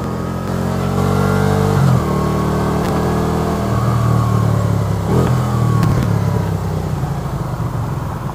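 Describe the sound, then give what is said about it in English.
Vehicle engine exhausts rev loudly in a continuous, throaty roar with a rich low rumble. The tone shifts in pitch a few times as the throttle changes, and no voices are heard. “Thanks for that little audio clip. I really appreciate that. Those exhausts do sound good, don't they?”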